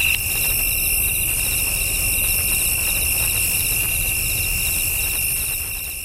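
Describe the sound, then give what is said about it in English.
Crickets chirping: a steady, high, shrill trill with rapid rhythmic pulses, heard alone over a low background hum and fading slightly at the very end. “yes, crickets. This year, crickets.”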